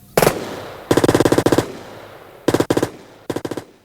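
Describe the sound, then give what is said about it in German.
Machine-gun fire in a shootout between gangsters and FBI agents: loud, rapid rattling bursts, a short one first, then a long sustained burst, followed after a pause by a few shorter bursts. “Dillinger und seine Leute hatten das Feuer eröffnet.”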